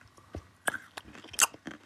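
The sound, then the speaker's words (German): Crunching on a cinnamon-coated almond, a few crisp, sharp bites and chews in quick succession, the loudest crack coming late, with quiet pauses between the crunches. “Was isst du da? Das ist ein Zimtmandel. Warte, ich gebe euch kurz den Crack.”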